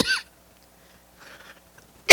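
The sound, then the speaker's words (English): A person coughs twice: a sharp cough, a long quiet gap with faint small noises, then a second loud, abrupt cough. “Sorry about all that coughing.”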